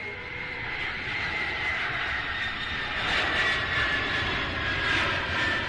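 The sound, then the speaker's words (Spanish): An airplane engine drones steadily in a broad, rushing roar that swells slightly partway through and holds at a moderate level, with no voices. “agarramos nuestro avioncito que nos ganamos en el billete de lotería y aterrizamos en la Liga MX”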